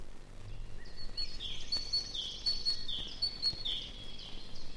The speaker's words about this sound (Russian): Сейчас звучит ее песенка. Эту птицу зовут еще Ополовничек, потому что она похожа на разливательную ложку.